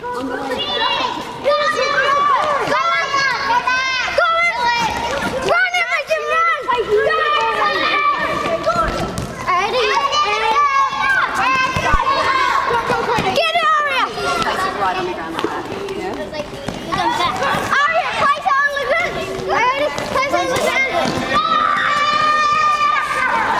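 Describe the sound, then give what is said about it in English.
Year-three children run a relay on a school court: quick running footsteps under a loud, unbroken wash of children's voices calling and cheering for the whole stretch. “On your marks, get set, go, go. Running around the end, running around the end. And the year threes are off and running again on the court.”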